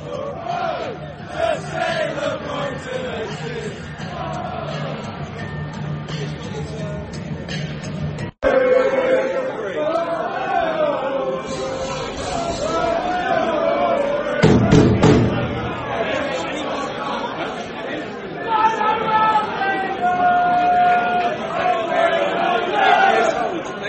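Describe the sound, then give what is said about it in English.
Football crowd noise at an Albion match, a dense roar with chanting and shouts building under ongoing talk. After a brief cutout partway through, the crowd sound resumes somewhat fuller and louder. “it all sounds a little bit quiet, a bit subdued, really, for what could be a great opportunity for the Albion to do something a bit special this evening, hopefully. And as I say that, the crowds start to get going”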